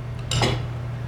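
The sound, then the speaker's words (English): Two spoons clink and scrape against a plate as someone tries to cut food at a meal, making one brief metallic clatter over a low, steady hum. “Trying to cut with two spoons.”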